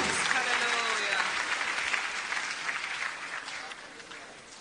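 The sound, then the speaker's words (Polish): Applause from an audience at a church service, a dense, steady clatter of many clapping hands that holds loud at first and gradually fades toward the end. “Oddajmy Panu oklaski.”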